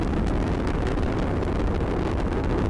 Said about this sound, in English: Roll program is complete. Boosters throttle down. And the Atlas rocket carrying OSIRIS-REx has gone supersonic.